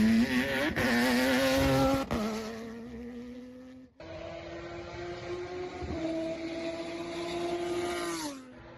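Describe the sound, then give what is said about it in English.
A V12 car engine drones loudly in a sustained harmonic snarl, with clear breaks near two and four seconds, then holds a steady tone before cutting off. “What is it, V12, right? Who V12 is this?”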